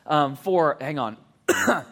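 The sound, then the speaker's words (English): Coughing and throat clearing from someone with something caught in the throat: a few gruff, voiced bursts in quick succession, the last one sharper and more forceful. “I got something in my throat at a bad time.”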